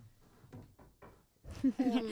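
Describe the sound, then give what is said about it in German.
A few faint, dull knocks on wood, made for luck, come in quick succession near the start. A voice follows them. “jetzt muss ich auch auf Holz klopfen”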